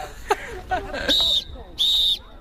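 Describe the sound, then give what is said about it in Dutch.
Two sustained, high-pitched whistle blasts at a korfball tournament in Apeldoorn, each held steady for a moment with a short gap between them, after a few faint scattered voices and knocks. “een fluitje hebben ze nog wel, maar daar houdt het dan ook mee op bij dit toernooi in Apeldoorn”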